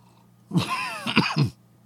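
Coughing after accidentally inhaling coffee: a single harsh, sputtering fit of about a second with three throaty jolts, moderately loud, heard alone with no talking.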